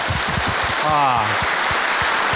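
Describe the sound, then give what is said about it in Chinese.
Audience applause at a Henan TV opera programme: a steady wash of clapping runs under a speaking voice throughout. “把掌声送给自己。”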